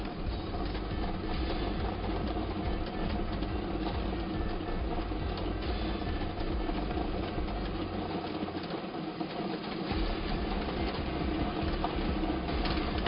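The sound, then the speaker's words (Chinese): A lottery drawing machine holding 30 numbered balls runs at a lottery draw, giving a steady, dense mechanical whirr and rattle that holds at an even level without a break. “马上为您启动摇奖机。好，摇奖机正式启动了。”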